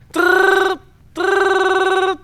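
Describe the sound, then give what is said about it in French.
A bell rings in two long bursts, each a sustained, bright, buzzing tone like an old telephone bell, separated by a short silence, with the second ring longer than the first. “Sonnerie, cloche, bruit de basse-cour.”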